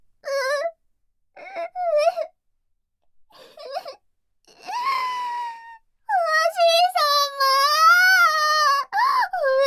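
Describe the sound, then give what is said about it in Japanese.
A voice fakes tearful crying, starting with a few short, high whimpering sobs separated by pauses, then moving into longer, drawn-out wails with wavering pitch that grow louder and more continuous toward the end. “てめえ、何あざとい嘘泣きしてやがる！”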